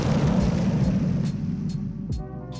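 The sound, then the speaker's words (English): Bomb drop sound effect: a heavy, low roaring rumble that holds steady, then thins out slightly toward the end. “So today, I'm going to review this year's brand new spanking new movie. Let me get a bomb drop, please.”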